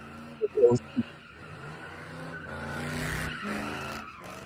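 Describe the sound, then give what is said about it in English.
A loud Ford Crown Victoria with no catalytic converter gives off a raw, raspy engine roar with tire noise. The roar swells toward the middle and then eases, with voices over it. “That is a Crown Vic that Raggedy you're hearing right too. Now. And it's got no catalytic converter.”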